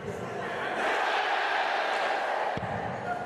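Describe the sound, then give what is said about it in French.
A darts crowd applauds after a player narrowly misses a nine-dart finish, giving a steady, dense wash of clapping and crowd murmur that holds through the whole moment. “Et le public qui quand même applaudit.”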